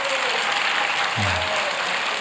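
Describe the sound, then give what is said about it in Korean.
A church audience claps in praise during a worship service, producing a steady, dense round of applause that stays level throughout. “우리 하나님 앞에 박수로 하나님 앞에 영광 올려드릴까요?”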